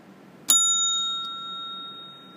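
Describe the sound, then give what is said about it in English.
A single bright bell ding, the signal to turn the page of a read-along book, strikes sharply. Its clear metallic tone then rings on and fades slowly for about two seconds. “When you hear this sound, it means you have to turn the page.”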